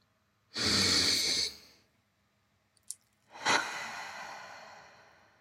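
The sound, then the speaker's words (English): A deep breath is drawn in and then let out in two long, airy breathing sounds. A short quiet pause with a faint click separates them. Both are soft, with no talk. “I invite you to take a deep breath with me.”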